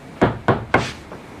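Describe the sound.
Three sharp, evenly spaced knocks on a locked door, each loud and followed by a brief decay, with no voices.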